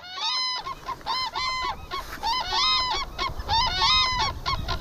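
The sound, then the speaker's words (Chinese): A pair of black-necked cranes calling together in a duet, with many loud, high, trumpeting honks in quick, overlapping bursts throughout. “在我们观察的时候，黑颈鹤家庭的两只成年鹤发出了鸣叫，高亢的鹤鸣清晰可闻。”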